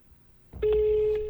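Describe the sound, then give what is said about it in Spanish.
Telephone ring tone on an unanswered call to a switchboard in Bogotá: after a soft click, a single steady, even-pitched tone starts and holds to the end over a low hum. “Y ahí estoy llamando, Conmutación Bogotá, y no responden.”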